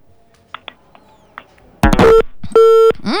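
A telephone line cuts off during a radio call-in: after near silence, a loud distorted burst carries a steady tone, followed by a second loud harmonic tone.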